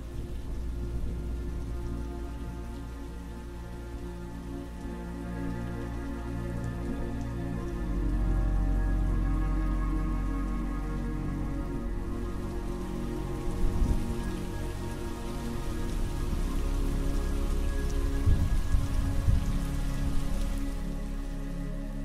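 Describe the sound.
Heavy rain falls without pause, making a dense, even hiss over a low rumbling wash. The downpour swells a little partway through and stays strong throughout, with no voices.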